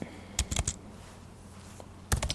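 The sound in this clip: Messages are typed on a computer keyboard in two short bursts of rapid clicking keystrokes, separated by a quiet pause.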